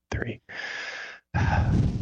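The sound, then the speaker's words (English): Deep breaths: a short breathy puff, then two longer, steady, airy breaths separated by brief silences, fairly loud and close, with no talk. “On three, let's take a deep breath, focus real quick, and relate with Blake and Becca”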